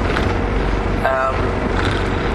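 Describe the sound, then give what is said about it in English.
Continuous roar of a car driving along a freeway from Canberra back to Sydney, a loud, even wash of engine and tyre noise heard from inside the car while someone talks. “I've just finished it up and I'm now driving back to Sydney. I've got to be a little careful along the freeway here”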